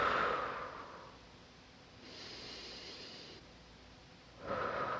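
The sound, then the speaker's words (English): A deep breath drawn in, held briefly, then let out through the mouth as a calming exercise for anxiety. Soft, airy rushes of breath swell and fade a few times with quieter pauses between, with no talking. “take an in-breath in, a big in-breath in, just hold it for a couple of seconds and breathe out through my mouth”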